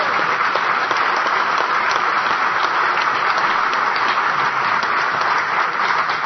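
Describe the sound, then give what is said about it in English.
Sustained audience applause for a vendor at a woodworking gathering, a dense, uniform rush of many hands clapping that stays at one level for several seconds. “So let's get a round of applause for him.”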